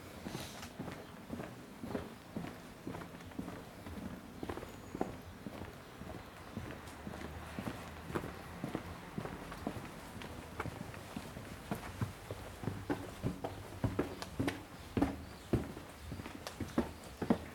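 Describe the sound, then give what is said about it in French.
Footsteps climb small outdoor stairs, a long run of many steady, fairly quick steps with crisp, clip-clop-like scuffs throughout and no talking. “Nous montons à Saint-Denis On va à Saint-Denis voir ah, si peut-être en passant par les petits escaliers, ce sera plus simple.”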